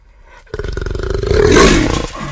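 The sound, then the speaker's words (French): A jaguar roar, one loud, deep, rasping call that starts abruptly after a short quiet moment and holds for nearly two seconds. “Le jaguar. Bonne réponse.”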